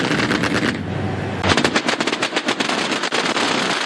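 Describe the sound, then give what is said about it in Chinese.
Anti-aircraft guns fire in a live-fire air-defence interception drill in hot weather, alternating with concentrated volleys. Loud, rapid bursts of sharp shots run almost without a break, with a short dip before a denser stretch of reports. “高炮分队运用交替射击、集火射击等战术，在空域形成密集火力网，精准拦截来袭目标。”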